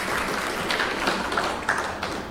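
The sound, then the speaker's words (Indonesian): Clapping for Team B at an Indonesian quiz competition, a steady crackle of many hands with a few sharper individual claps standing out, held at a moderate level throughout. “Ya, tepuk tangan untuk Regu B.”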